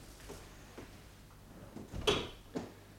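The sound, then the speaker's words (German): A door is shut quietly with a dull knock and a brief click, followed by a fainter second tap. Low, steady background hiss sits underneath. “So, die Tür ist zu.”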